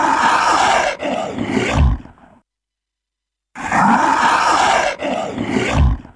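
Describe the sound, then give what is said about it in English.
A Komodo dragon roars in a huff: a loud, breathy hissing burst, then a rougher one ending in a deep grunt. After a pause of silence the same pair repeats, and no one speaks. “Yep, that is the sound of a Komodo dragon in a bit of a huff.”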